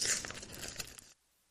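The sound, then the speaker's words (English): Paper envelope being torn open: one continuous, crisp ripping burst of about a second, loud and noisy, that stops abruptly into silence. No one talks. “I will open it live on the air. Today I got this envelope from my patron saint, Dr. Sir Mycrotch”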